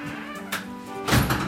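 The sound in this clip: The door of a bed and breakfast in a red-brick house in Winnipeg opens with a faint thud and then a louder, rumbling thump over a steady low hum.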